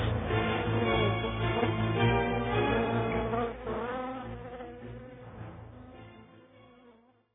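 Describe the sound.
A mosquito's buzz: a continuous, whining hum that wavers in pitch, holds fairly loud for a few seconds, then gradually fades away toward the end.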